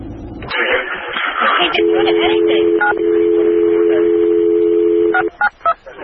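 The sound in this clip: Telephone tones sound on a recorded dispatch transmission. A steady two-pitched tone holds for several seconds, then a few short keypad beeps follow, with voice-like noise at the start.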